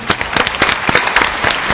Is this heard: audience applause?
yes